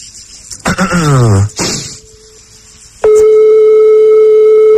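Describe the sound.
Ringback tone of an outgoing telephone call: a brief throaty vocal noise, then a faint steady tone, then a loud, unbroken buzzing ring tone that sounds through to the end.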